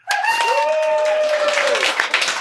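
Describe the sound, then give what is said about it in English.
Hands clapping in a loud, steady burst of applause throughout, with a sustained tonal sound layered over the first part. “John told me specifically not do that, but I just did. No clapping after my name.”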